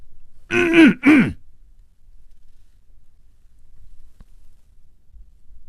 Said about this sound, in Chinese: 他努力地鼓足了勇气，咳嗽了一声。